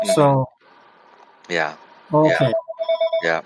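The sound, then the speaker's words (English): A telephone rings between stretches of conversation. The ring comes as a series of short, evenly spaced pulses that are clearest near the end, while people talk over the earlier part. “Sounds like your voicemail's going over there.”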